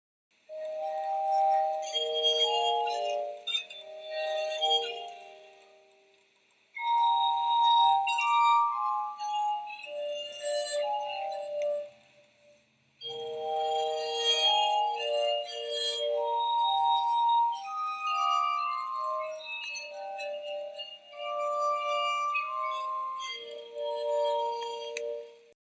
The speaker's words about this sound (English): glass harmonica, which is essentially a stem of nested wine glasses that you might play otherwise standing up separately.